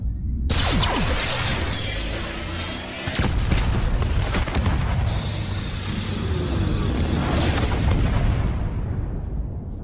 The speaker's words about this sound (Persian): خب این آخرین بمب بود.